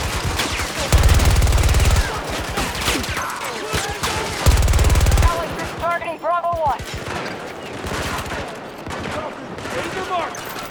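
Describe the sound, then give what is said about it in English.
Automatic gunfire in a shooter video game, hip-fired from a gun with a laser attachment: two loud, rapid bursts of shots stand out, and lighter shooting and voices fill the gaps. “Oh, I'm getting some decent hip fire kills, but yeah, hip fire is good. I got a laser attachment too, which really helps with hip fire.”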